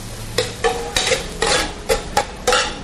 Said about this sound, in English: Here's our thyme. We'll mix that in.